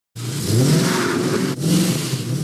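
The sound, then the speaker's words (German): A car accelerating hard, its engine revving into a loud, continuous mid-pitched roar that starts abruptly. There is a brief dip in the middle before the roar carries on, with no voices. “Extra stark aufs Gas drücken und die Reifen zum Quietschen bringen.”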